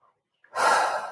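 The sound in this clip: A single deep breath taken during a grounding meditation: a sharp, airy intake that swells quickly and then tapers off, alone without talk.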